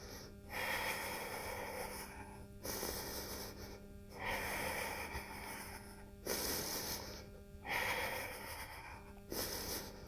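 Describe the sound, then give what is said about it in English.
Slow, deep breathing in and out through the nose while holding a yoga plank: several long, airy hissing breaths that alternate in a steady rhythm, each swelling and fading, with short pauses between and no talking. “Deep breaths in and out through your nose. Just 5 more breaths together.”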